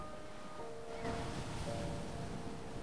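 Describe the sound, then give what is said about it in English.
Ocean waves wash in a faint, steady surf along the shore, with a soft, continuous hiss and rumble and a slight swell partway through. No one speaks. “Now he's looking out across the ocean, throwing pebbles into the water.”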